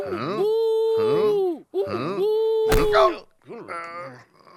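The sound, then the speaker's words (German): A voice imitates the groaning of an Egyptian mummy in an audio drama, with several drawn-out, wavering moans of clear pitch. A short noisy burst follows, then a thinner, higher whimpering wail. “Ach, ich weiß, was das ist. Ja, ich auch. Das ist eine Mumie. Eine Mumie? Ja, eine ägyptische Mumie.”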